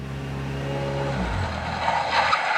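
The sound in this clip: A car pulls over and comes to a stop. Its low engine hum runs steadily, then drops in pitch as it slows, and cuts out near the end with no voices.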